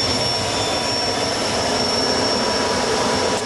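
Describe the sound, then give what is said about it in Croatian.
A helicopter's engine gives a steady, loud turbine roar with a thin high whine on top that stays constant throughout, with no voices. “Baš ovaj helikopter, pa pravac Srbija, da ode Hrvatska da ga više ne vidi.”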